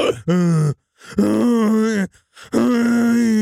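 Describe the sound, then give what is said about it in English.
Someone inside a toilet stall groans in three drawn-out, low, voiced moans. Each moan holds a fairly steady pitch, and short silences separate them. “The groaning started in the stall again.”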